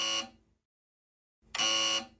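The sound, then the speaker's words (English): A lift alarm buzzer sounds in two harsh, buzzing bursts. The first is short and fades out, and after a pause the second is louder and longer, with no voices. “Is there an alarm? Here it is.”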